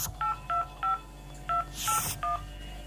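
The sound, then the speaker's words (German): Six touch-tone beeps as someone dials a call to a prosecutor's office on a telephone keypad. The short, clear tones come in an uneven rhythm over a low steady hum, with a brief noisy rustle near the fifth beep. “Ich hatte bei der Staatsanwaltschaft angerufen und nach Dr. Axel Hinrichs gefragt”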